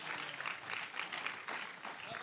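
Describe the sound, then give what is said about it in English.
Congregation hand clapping in a Pentecostal church service, faint and thin, with uneven bursts of many hands swelling and easing in a loose rhythm across the short stretch. “Give Jesus another big hand clap.”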